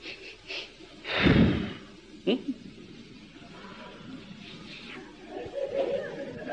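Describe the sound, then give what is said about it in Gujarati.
A forceful exhale through the mouth during a breathing exercise: one loud, rushing burst of breath, followed by a few shorter, softer breathy puffs. “એટલે આપણે જોરથી શ્વાસ છોડીએ.”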